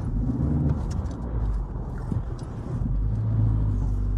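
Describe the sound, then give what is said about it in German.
A Seat car drives along a road, giving a steady, loud low rumble of engine and tyre noise that holds evenly throughout, with no talking. “Jetzt kommen wir auf die Hanulandstraße. Das ist doch wunderbar. Wie gesagt, wir sind eigentlich mit dem Seat sehr zufrieden.”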